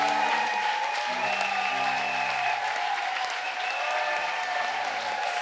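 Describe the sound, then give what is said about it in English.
Congregation clapping for the Lord at a praise and thanksgiving service, a loud, continuous wash of many hands with sustained musical notes holding underneath. “Acclamons le Seigneur par anticipation. Let's clap for the Lord as we foresee it.”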